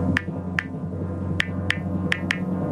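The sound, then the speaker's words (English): Typing on an iPhone: six light, crisp taps at an uneven rhythm over a low, steady hum, faint and with no voices. “Can you guess the secret sound? Is it typing on an iPhone? Is it typing on an iPhone?”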